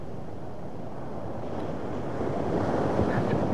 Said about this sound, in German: Weggeschwemmt von den Wellen. Den meterhohen Wellen. Den haushohen Wellen.